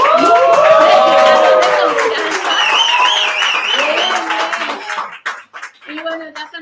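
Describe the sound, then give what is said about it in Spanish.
A live audience cheers, whoops and claps at a comedy show held in Ciudad Mezcal restaurant. The loud, sustained crowd noise thins out toward the end into scattered voices and claps. “no estoy sola, tengo un publicazo, mi público virgen, los primeros en venir a la primera edición con público de Enseñando los Dientes”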